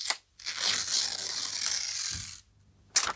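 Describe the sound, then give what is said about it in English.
Paper tears as a golden envelope is opened at an award presentation. One long, even rip lasts about two seconds, followed by a short crisp crinkle at the end. “I'm going to open up the, uh, of course, the golden envelope, which you're all familiar with. Here we go.”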